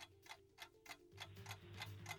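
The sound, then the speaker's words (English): A quiz show clock ticks on a radio quiz, with faint, evenly spaced ticks at a steady rhythm of about three per second. A low hum enters partway through. “KG, start the clock.”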